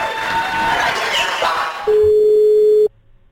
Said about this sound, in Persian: تماس مستقیم داریم با یک شنونده خوش شانس.